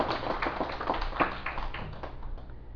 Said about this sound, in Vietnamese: Xin quý vị vỗ tay.